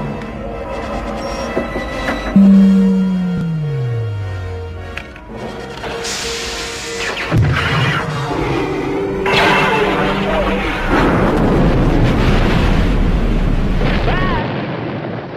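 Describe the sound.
Sci-fi blast effect of the Death Star destroying the planet Alderaan in Star Wars: a long falling tone gives way to loud roaring blasts and a heavy, sustained rumble.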